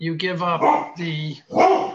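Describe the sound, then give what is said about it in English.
Deep barking from a 14-year-old male Labrador: a few drawn-out, strongly voiced barks in quick succession, loud and close together with a brief gap before the last one. “That's my puppy. I get that. That puppy sounds like a horse. Yeah, he's a boy. He's 14 years old. My lab.”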